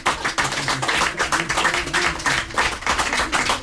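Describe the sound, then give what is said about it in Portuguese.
Strong applause thanking four women singers after their final song, dense, steady clapping that stays loud and even throughout. “Queremos com um forte aplauso agradecer a estas quatro mulheres encantadoras”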